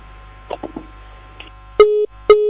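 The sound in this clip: Busy tone on a telephone line after a call is cut off. A few faint clicks come first, then two loud, steady beeps of equal pitch.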